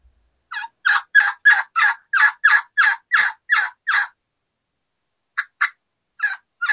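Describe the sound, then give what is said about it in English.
Rollover yelps of a hen turkey, imitated on a turkey call: a quick, even run of about eleven raspy, high-low notes, then a pause, then four more scattered yelps. “It's going to start with that high pitch, and then it's going to snap really, really drastically into the back end.”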